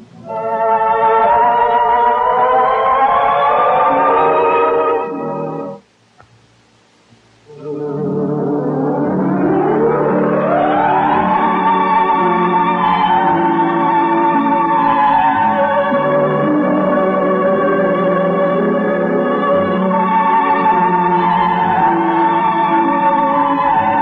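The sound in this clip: A smooth vocal pop song plays with rich, sustained harmonic tones. It breaks off briefly, then resumes with a rising swell and holds a steady, full sound to the end.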